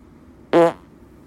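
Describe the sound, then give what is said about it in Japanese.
A single short, loud fart let out before bed, a brief buzzing, tonal burst lasting a fraction of a second, then quiet. “じゃあ寝る前におなら一発いっときましょうか。いきます。”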